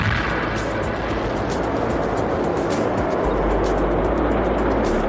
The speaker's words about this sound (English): 3 different types of solid fuel rocket are designed to fire at the first hint of a malfunction in the launcher. 1, ignition.